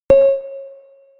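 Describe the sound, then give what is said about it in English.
A sonification tone marks the 2011 seafloor elevation threshold in a map of bottom pressure recorder data: one bell-like note at a steady pitch that starts sharply and fades away over about a second. “For the following sonifications, the 2011 elevation threshold will sound like this.”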